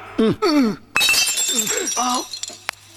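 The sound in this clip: A glass bottle of castor oil is thrown and smashes with a sudden, bright crash followed by a spray of high, tinkling shards. People talk before and after the break.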